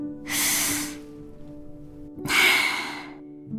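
A person takes a deep breath, heard as two long, airy, hissing breaths with a quiet gap between them and a faint steady hum underneath.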